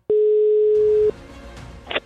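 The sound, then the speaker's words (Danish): Ringback tone of an outgoing telephone call: a single steady, mid-pitched tone lasting about one second, followed by quiet line noise and a brief click near the end. “Jeg ringede til vores musikchef Roger tidligere i dag.”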